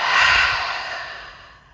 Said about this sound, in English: let's take together a full deep inhale in through our nose. And exhale through your mouth.